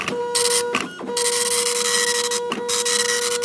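An insurance policy printer runs with a loud, continuous mechanical whir and a steady tonal hum, broken by two brief dips as the mechanism shifts before resuming.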